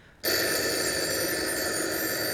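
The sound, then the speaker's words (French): A telephone bell starts abruptly and keeps ringing in a steady, bright metallic trill at a constant loudness to the end. “Vite, téléphonons maintenant au capitaine.”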